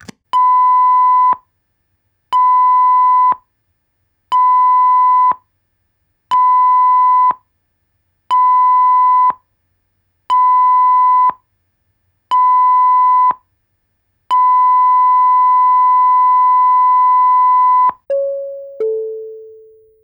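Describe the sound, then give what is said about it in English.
A passenger ship's general emergency alarm sounds as seven short, evenly spaced, mid-pitched beeps followed by one long steady tone. A brief, lower two-note descending chime comes right after the signal. “the sound you have just heard was the general emergency signal.”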